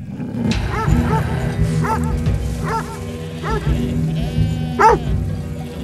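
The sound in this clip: Dogs bark near a tree line in a series of sharp, separate barks, some doubled, over a steady low background hum.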